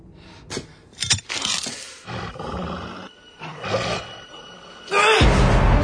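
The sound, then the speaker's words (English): Wolves snarl and roar during a chase through a corridor. The growling is harsh and continuous, with a few sharp louder snarls, and it ends in a sustained, rough roar. “The wolves chase him.”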